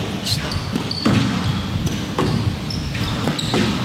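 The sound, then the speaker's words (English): Sharp ball strikes from a drop shot in a women's racket match, a few crisp, punchy hits spaced irregularly over a steady busy background. “Very nice drop shot to finish off. Just cuts the ball in there.”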